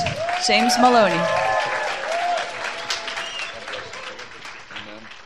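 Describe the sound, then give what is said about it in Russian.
Audience applause welcomes a speaker onto a stage, a sustained patter of many hands with a voice talking over it at the start, then gradually easing off. “Давайте бурными аплодисментами Let's пригласим на эту сцену Джеймс Малони.”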